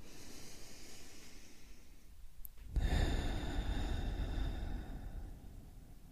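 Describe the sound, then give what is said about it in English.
A slow, deep breath drawn in and let out, a soft airy inhale followed by a sudden, louder breathy exhale that trails off gently. “First, let's take a deep breath in and a deep breath out.”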